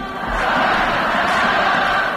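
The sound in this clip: Stadium crowd ambience fills a women's football match between Barça and Real: a dense, continuous murmur of many voices holding at an even, fairly loud level throughout.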